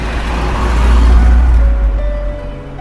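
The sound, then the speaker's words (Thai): A car being driven gives a steady, low engine rumble that swells slightly in the middle and eases toward the end, with no voices. “ในขณะที่นายนบขับรถไป แล้วก็พูดไป”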